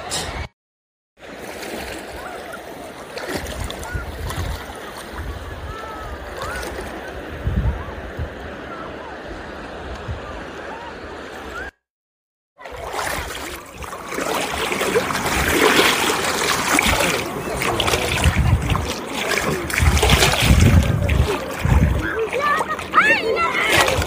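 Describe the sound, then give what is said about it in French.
Cold sea water splashing and sloshing as a person wades in wearing sandals, a voice talking over the steady watery churn, which grows louder and busier in the second half. “Oh, coche, je viens d'entrer dans l'eau, elle est froide. Elle est super froide.”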